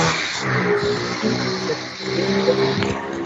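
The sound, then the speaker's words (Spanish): A motorcycle passes by outside in a residential neighbourhood, its engine a loud, steady, rough drone that dips slightly midway and then swells again. “Acaba de pasar una moto. Sí, acá por mi barrio, sí. O algo por el estilo. Sí, una moto. Hace un ratito. Pero sí, se escucha, no importa.”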